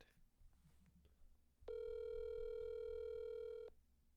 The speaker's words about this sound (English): Oh, ring a ding a ding a ding. I just dialed high on accident.